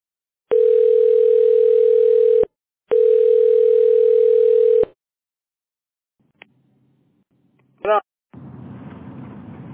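A telephone dial tone sounds after a dropped call: two long, steady, mid-pitched tones of about two seconds each, separated by a short gap. A faint click, a brief crackle and a patch of low hiss follow.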